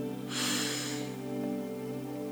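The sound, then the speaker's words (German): A deep breath in during a guided relaxation exercise: one soft, airy inhalation lasting under a second. It sits over a steady humming drone that continues alone afterward. “mit einem nächsten tiefen Atemzug die Luft bis in die Lungenspitzen ziehen”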